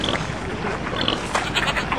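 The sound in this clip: Pigs grunting and oinking among livestock for sale alongside sheep and cows, a dense, continuous jumble of animal noise throughout.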